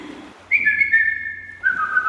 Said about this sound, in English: When I got older, I taught it to my son. But that's our family whistle.